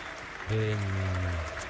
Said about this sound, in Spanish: Minuto de aplauso desde la voz del estadio para un gran fotógrafo.